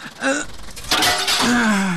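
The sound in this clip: Window glass is smashed in one bright, crashing burst near the middle, surrounded by strained gasping and groaning voices.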